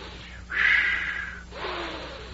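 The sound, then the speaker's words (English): An exaggerated deep inhale, imitating a breath of fresh park air: a long, loud, airy intake lasting about a second, followed by a softer second breath. “The air was wonderful, and I inhaled this wonderful air. I went like this.”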